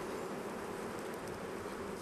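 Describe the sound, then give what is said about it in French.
Honey bees buzz in an opened hive, a dense, continuous, quiet hum of many wings that holds steady throughout without pauses or voices. “Par contre, en sortie d'hivernage, il y a 30 000 abeilles, c'est déjà bien”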